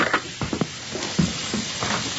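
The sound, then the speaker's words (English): Food sizzles while it cooks in a pan, a steady soft frying hiss broken by a few brief scraping or stirring knocks, fairly quiet and with no talk. “Are you cooking?”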